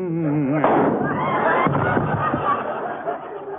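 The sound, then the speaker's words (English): A gunshot sound effect in a radio comedy: one sharp bang cuts off a man's singing, followed by continuous crowd noise and chatter. “Who plugged Nelson Eddy? Who shot him between his all and his nothing at all?”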